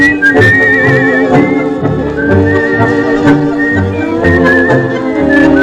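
Whistling in the ox-driver style rides above a tango orchestra recording with violins. The bright, piercing whistle comes in several phrases over loud, rhythmically accented strings and deep bass notes, with no talk.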